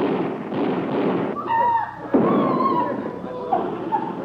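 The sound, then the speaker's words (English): A gunshot rings out in a dramatic scene, one sharp report cutting through sustained tonal sounds, with more bursts of noise following. “Collins, they shot him.”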